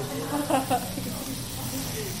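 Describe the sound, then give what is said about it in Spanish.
Onions sizzle as the base for a chicken and rice stew, giving a steady, even hiss throughout, with someone briefly speaking near the start. “Está haciendo un guiso de pollo con arroz. Está haciendo una base de cebollas.”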